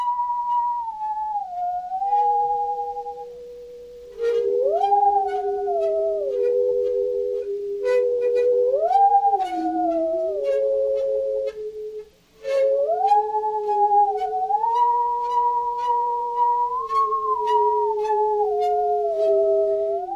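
A singing saw and a theremin play together: two wavering, sliding tones with vibrato that weave a slow melody, one above the other, with a brief gap near the middle.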